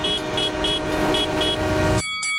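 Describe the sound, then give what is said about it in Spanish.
A train horn sounds at a railway crossing: one loud, steady, sustained blast for about two seconds that then cuts off abruptly, followed by thinner, quieter tones. “Todos los días, muchos resultan heridos o muertos intentando ganarle a un tren en un cruce ferroviario.”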